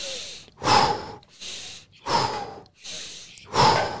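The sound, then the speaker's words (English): Deep, rhythmic breathing in and out during a breathing exercise. Strong, airy breaths alternate with softer ones at an even, unhurried pace, with no talking. “I usually like to also open up my shoulders when I inhale, and kind of bring my shoulders forward when I exhale.”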